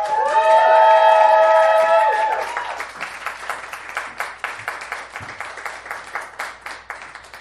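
An audience greets a guest called to the stage with loud applause and cheering. Strong whoops at the start fade after about two seconds into steady, many-handed clapping that carries on at a lower level.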